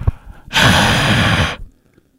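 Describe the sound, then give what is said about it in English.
A single long, breathy exhale of carbon dioxide from a person's mouth, loud and steady for about a second, heard alone with quiet before and after. “That's me exhaling carbon dioxide.”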